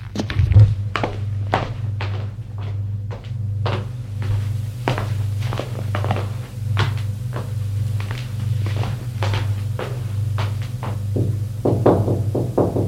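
Footsteps climb up to a bedroom: many steady, heavy thuds follow one another at an even pace over a constant low hum.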